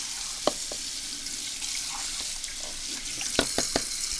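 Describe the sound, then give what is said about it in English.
Tap water runs steadily into a sink while a cup and a funnel are rinsed, making a constant hiss. A few faint clinks and knocks of the cup and funnel sound over it, mostly toward the end. “So now we rinse the other cup off. And rinse out the funnel.”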